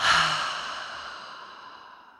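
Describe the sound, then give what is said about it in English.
Deep exhale out through the mouth during a guided breathing exercise, following a full nasal inhale: a single soft, airy breath that starts strongest and gradually tapers away over about two seconds, quiet and alone. “Breathe in through the nose, big, full breath here. Out through the mouth.”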